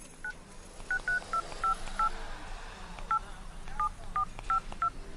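Phone keypad dialing tones from a mobile phone: many short, clear beeps at irregular intervals as a number is keyed in, over a steady low background hum.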